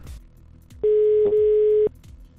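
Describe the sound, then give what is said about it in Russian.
A single steady telephone tone sounds while a call is being placed. It lasts about one second, with a brief click partway through, over faint background noise before and after. “сейчас еще раз позвоню им.”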